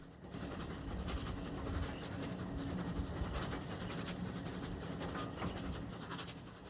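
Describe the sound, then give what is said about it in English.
Steam train moving off an embankment and into a cutting with steep banks on either side; a steady rumbling roar runs throughout, with repeated puffs and rail clatter and no voices. “Within the matter of a few hundred metres, however, the train heads into a cutting with steep banks to either side.”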